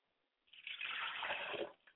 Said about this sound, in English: I pour libations to the east